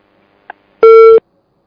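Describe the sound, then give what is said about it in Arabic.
A telephone busy tone follows a disconnected call: one steady electronic beep lasting about a third of a second, preceded by a faint, very short blip, with no voices. “ما زالت معي أم انقطع؟ انقطع الاتصال.”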